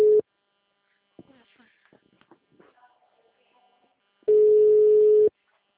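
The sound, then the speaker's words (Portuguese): Steady single-pitch telephone ringback tone of an outgoing call: a brief clipped burst at the start, then after a pause with faint murmuring, one full tone lasting about a second. “Nossa, tá ligando?”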